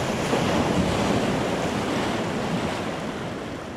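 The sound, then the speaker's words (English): The tidal bore wave surging upstream against the current on the River Severn makes a continuous loud roaring rush of water mixed with gusting wind noise, easing slightly toward the end. “The wave travels upstream, against the current.”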